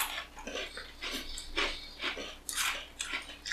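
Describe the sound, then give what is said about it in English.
Crunchy chewing of crumbly chocolate sandwich cookies layered with thick cream, a quick irregular run of dry crackling bites and munches, fairly quiet with no talk. “These cookies are just crumbling to dust.”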